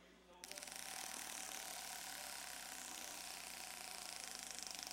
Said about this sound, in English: Spin the wheel. Good. Spin it.